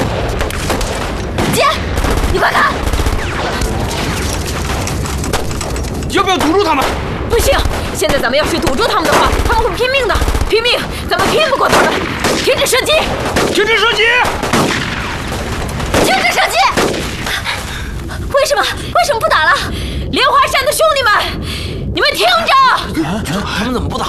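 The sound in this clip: Gunfire in a battle: dense, loud, continuous crackle and booming shots with almost no break, and voices shouting over the din.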